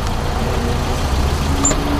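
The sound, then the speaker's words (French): A loaded family car towing a loaded trailer, its axles under strain: a loud, steady low engine drone that holds an even level throughout, with no talking. “Une voiture familiale tractant une remorque, les deux chargés comme un mulet. Les essieux souffrent et le font savoir.”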